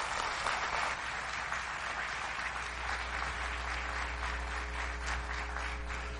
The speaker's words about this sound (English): Will you give him a hand, please?